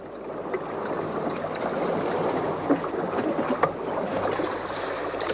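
Waves lap on a beach with a steady, soft sloshing wash of water, broken by a few small splashes.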